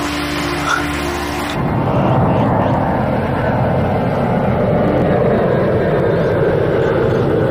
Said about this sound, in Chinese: 飞机呗，过了39架了。